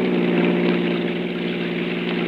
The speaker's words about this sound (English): A car had come around the curve behind us.